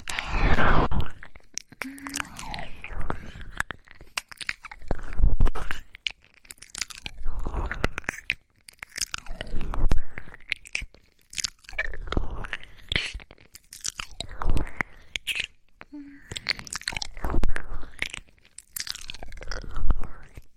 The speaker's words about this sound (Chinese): 小耳朵好好吃，